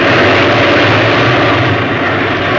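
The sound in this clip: Steady, loud roar of a fighter plane engine at full throttle in a dive, a dense, unbroken drone that holds at the same level throughout with no voices.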